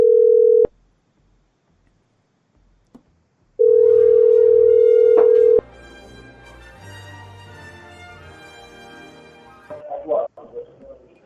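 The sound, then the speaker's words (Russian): Telephone call tones while placing a call: two long, steady beeps at a single pitch, separated by silence, then open line noise and voices near the end. “Сейчас я звоню, который первый тип взял трубку.”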